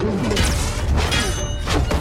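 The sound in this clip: Fists pounding on the translucent doors of a spaceship in a sci-fi film scene: a few heavy thuds and whacks stand out against a loud, dense rumbling backdrop.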